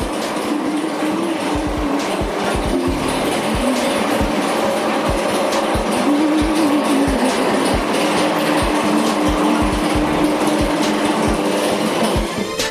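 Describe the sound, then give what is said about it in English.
A grinder grinds ginger and garlic into paste, making a loud, steady mechanical whir with many low knocks running through it from start to end. “Today, Shika and her team are making a mixture of ginger and garlic. Both vegetables are sorted and go through a grind.”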